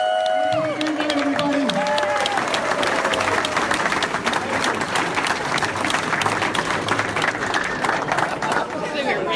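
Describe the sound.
An audience applauds and cheers at the opening of an exhibit for Rolly Crump. A voice is heard briefly at the start, then dense clapping holds steady and loud to the end.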